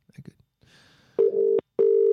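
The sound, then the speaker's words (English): Ringback tone of an outgoing telephone call ringing out: two steady, moderately loud tone bursts with a short gap between them, after brief quiet talk at the start. “So we'll give him a call.”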